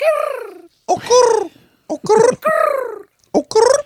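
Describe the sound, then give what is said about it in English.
A human voice imitates bird noises: a series of loud, warbling calls, each sliding downward in pitch, broken by short pauses. “Bird noise. Bird noises.”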